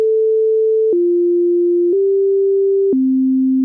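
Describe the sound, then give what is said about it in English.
Tsunami siren test tones: four steady, pure, low electronic tones in sequence. The second steps down, the third rises slightly, and the last drops lowest, each held about a second at constant loudness. “Tsunami sirens are tested every other month on the first Monday of the month at 12 o'clock noon. Test tones sound like this.”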